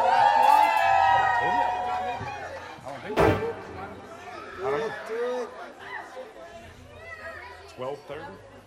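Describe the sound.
Women in an audience at a late-night show cheer and whoop over crowd chatter, with high excited yells rising and falling and a sharp thud about a third of the way through.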